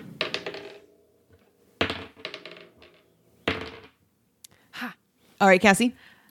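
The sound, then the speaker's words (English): A twenty-sided die is rolled three times, each roll a short burst of clattering clicks and bounces with quiet gaps between, followed by brief speech. “I would need you to roll your D20 3 times, please.”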